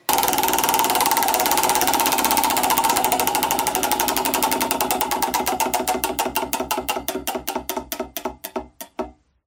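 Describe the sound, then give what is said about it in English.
A spun prize wheel ticks rapidly at first, then its clicks spread out and slow steadily until the wheel stops and the sound cuts to silence. “should we give that wheel another spin? Let's do it. Your turn. Let it all work. All right. Hold on.”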